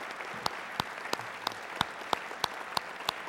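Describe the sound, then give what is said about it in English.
Applause for mothers at a morning gathering: a steady, fairly faint wash of clapping with sharper individual claps standing out at a regular beat. “We love you, moms. We give moms all a hand here this morning.”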